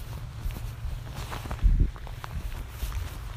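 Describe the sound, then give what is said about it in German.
Footsteps crunch along a narrow gravel path during a walk, a steady run of many rough, scuffing steps at moderate loudness, with one heavier step standing out near the middle. “Ah, ich laufe immer noch, ich laufe immer noch, ich laufe immer noch. So, meine Schuhe leiden.”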